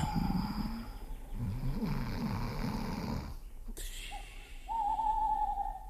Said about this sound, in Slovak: No a to iba sova húka.